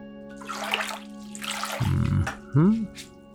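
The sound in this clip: Water runs and splashes as someone is being washed, with an intermittent pouring sound beneath a voice speaking.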